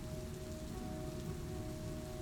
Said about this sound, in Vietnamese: Ngoài trời lúc này mưa vẫn rơi như trút nước, sấm chớp sáng loá cả một góc trời.